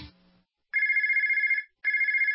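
A telephone ringtone plays two electronic trilling rings of equal length, separated by a short silence, each bright and warbling. A brief low sound comes just before the first ring.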